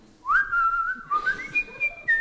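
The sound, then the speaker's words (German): A person whistling a tune, opening with an upward slide into a sustained note, then moving through longer and shorter notes, clear and fairly loud against faint background noise. “Vor lauter Peinlichkeit versuche ich zu pfeifen. Im selben Moment beginnt auch der Fremde zu pfeifen, offensichtlich ebenso empfindend wie ich.”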